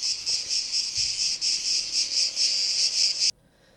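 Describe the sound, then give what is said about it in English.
Cicadas chirping: a loud, shrill, continuous buzz that pulses in a steady rhythm, then cuts off abruptly near the end, leaving near-silence. “Cicadas are cheering you on, guys.”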